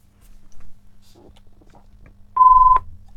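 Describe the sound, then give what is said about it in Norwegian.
A telephone rings during a bingo game, sounding as one short, steady, fairly high electronic beep that stands out loudly above a faint background murmur. “Og der ringer telefonen”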